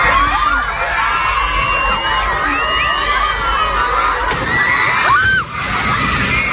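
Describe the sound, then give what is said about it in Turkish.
Panicked shouting and screaming from schoolchildren fleeing into a primary school yard during a strong earthquake that collapsed the school roof, a loud, continuous mass of young voices with a sharp bang partway through. “Şiddetli deprem bir ilkokulu da vurdu. Okulun çatısı çöktü. Öğrencilerin korkudan bahçeye çıktığı ve ileri geri sallandığı böyle kaydedildi.”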